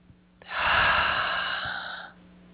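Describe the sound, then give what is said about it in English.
One deep inhalation taken during a guided breathing exercise, a smooth, breathy rush of air that swells quickly, holds for about a second and a half, then stops. No talk is heard. “now you can take your hands down and just take a nice deep breath.”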